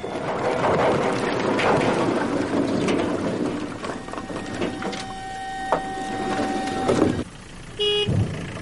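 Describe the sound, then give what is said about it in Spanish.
Truck driving away after unloading firewood from its trailer: a steady, broad engine rumble with a faint sustained hum that runs on for several seconds, then cuts off sharply before a few brief tones. “El camión se marcha y él se queda de pie frente a los trozos de madera.”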